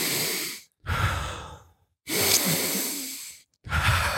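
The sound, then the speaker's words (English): A person imitates crying with big, deep breaths. A few long, loud, sighing inhales and exhales follow one another, separated by short silent pauses. “Sounds like I'm crying, right? Did that not sound like I was crying?”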